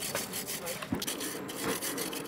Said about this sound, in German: Jetzt wird der sauber gemacht, ne, von allem, was drumherum war. Jetzt fängt die Arbeit erst an.